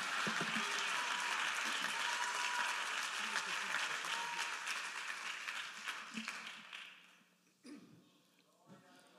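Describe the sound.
A church audience applauding the Lord Jesus during a bilingual Spanish-English service. Strong, steady clapping runs for several seconds, then fades out, leaving a voice speaking briefly at the end.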